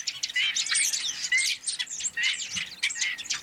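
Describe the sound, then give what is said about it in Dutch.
A large flock of starlings calls in a dense, continuous chatter of overlapping high whistles, clicks and chirps, the restless babble of birds gathering into huge seasonal swarms. “Zullen we die spreeuwenzwerm even laten horen”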